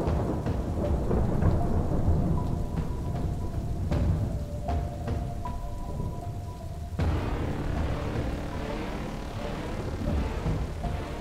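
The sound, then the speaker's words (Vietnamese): Heavy rain and rumbling thunder of a passing typhoon form a dense, steady wash of rainfall with low rolling rumbles throughout. The sound is loud and continuous, with no voices. “Đang chịu ảnh hưởng của bão, cho nên trời lúc nào cũng âm u, mưa rì rào suốt đêm ngày.”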